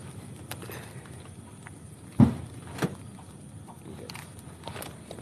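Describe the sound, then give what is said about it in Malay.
A car door is shut while someone gets into the car: one sharp, loud thump, then a smaller knock, over a low, steady background rumble. “Tunggu sekejap eh guys eh. I nak masuk kereta”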